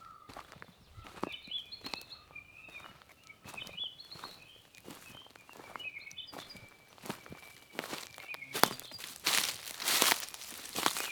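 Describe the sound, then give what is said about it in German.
Birds chirp in a spring forest floored with thick green moss and dried ferns, their faint high calls repeating early on while crunching footsteps step steadily through the undergrowth and grow louder toward the end. “Die Vögel, die hier gerade zwitschern”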